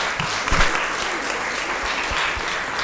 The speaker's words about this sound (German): Wir geben einen Applaus und heißen die beiden willkommen.